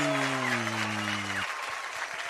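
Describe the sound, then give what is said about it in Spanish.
Fairly faint applause sent out over a children's radio program to people celebrating birthdays, a steady patter of clapping throughout. “Les enviamos el aplauso desde Radio Cultural TGN. ¡Aplauso, aplauso, aplauso!”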